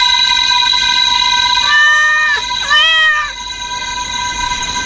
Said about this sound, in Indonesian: Suara apa itu? Eh, Don, tenang, hanya kucing kok.